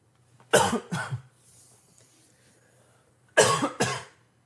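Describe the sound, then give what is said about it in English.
Two bouts of harsh coughing from a person with a nagging cough. Each bout has two quick hacks, separated by a quiet gap of about two seconds, with a faint low hum underneath. “this cough is killing me”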